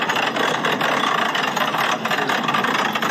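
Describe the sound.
Heavy vehicle of several tens of tons with its engine running while the driver eases lightly on the throttle during coupling to another vehicle; a loud, steady, dense rumble with no distinct revving.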